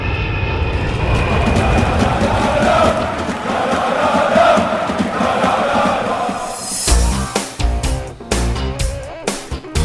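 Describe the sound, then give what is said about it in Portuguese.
A fixed-wing airplane's engines give a loud, steady roaring drone for about seven seconds, then give way to choppier, broken bursts of sound. “Agora vamos pegar o avião. Vamos pra Europa falar um pouco desse continente maravilhoso.”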